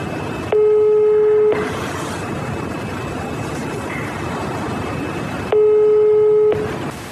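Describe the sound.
A telephone ringback tone plays while a call goes unanswered and is redialed: two steady one-second beeps separated by roughly four seconds, over a constant background hiss.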